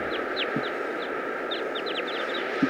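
A wild flock of birds calls, mostly males with some females, perched in a dead tree: many short, high-pitched chirps come in scattered clusters over a steady background hiss, with a soft low thump near the end.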